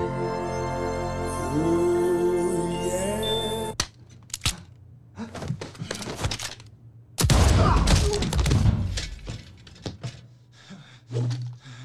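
Shotgun blasts ring out in a film scene where an elderly man kills Russians: tonal music gives way to sharp bangs and thuds, then a loud, dense burst of gunfire, followed by a few more scattered hits.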